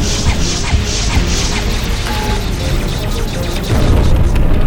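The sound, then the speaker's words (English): Spaceship weapons fire pounds against hull armor in a loud, continuous barrage of booming, crashing impacts over deep rumbling, with heavier blasts swelling near the end. “We're absorbing the weapon's fire. It's not penetrating our armor.”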